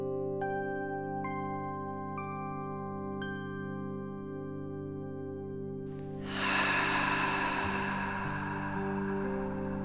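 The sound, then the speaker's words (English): A long, audible breath during a guided meditation: a steady airy hiss swells in late and holds to the end, over sustained soft ambient tones that carry a few chime-like notes earlier on. “And I breathe.”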